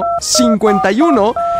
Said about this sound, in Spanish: vamos a recibir llamada telefónica al